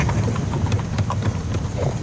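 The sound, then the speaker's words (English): Horse hooves clip-clop steadily as the animal pulls a carriage, a quick, even run of clops over a continuous rough rolling noise, with no talk. “Horse and carriage driver. Horse and carriage driver.”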